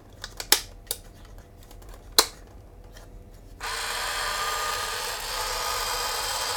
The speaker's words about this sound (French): donc nous mettons deux piles AA.